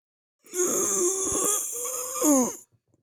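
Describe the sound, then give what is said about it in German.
A wounded man groans, one long voiced moan of about two seconds that swells again near its end before fading out, with no talk over it. “Portrick stöhnt und versucht sich gerade an das Licht der Fackeln zu gewöhnen.”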